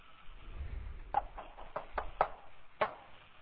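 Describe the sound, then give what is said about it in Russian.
Knocking on a door, a short series of sharp, muffled knocks in an uneven rhythm, faint and thin in tone, with quiet background hiss between the raps. “А можете постучаться? Попробую.”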